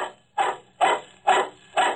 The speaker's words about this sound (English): The dog was big and shaggy. I first noticed him as I put my car into the garage.